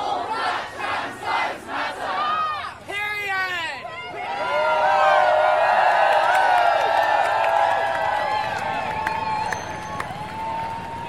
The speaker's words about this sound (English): I've just run ahead of the front of the march, which is still making its way slowly down Piccadilly in central London.